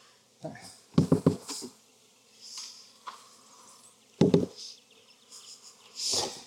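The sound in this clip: Honeybees buzz loudly around a hive as the frames are shaken, the droning swelling and fading irregularly with a few brief knocking bursts mixed in.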